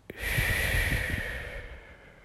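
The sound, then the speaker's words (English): A slow, deep breath in and out, soft and airy, swelling quickly and then fading over about two seconds with no talk. “So now we'll take a deep breath in and out.”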